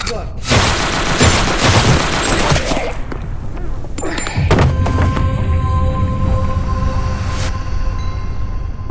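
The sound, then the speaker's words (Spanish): Machine-gun fire in a dramatized scene: a loud, sustained burst of rapid shots, a brief lull, then another blast followed by lingering metallic ringing tones. “La metralleta que se disparó estaba justo detrás de mí y me dejó completamente sorda por unos instantes.”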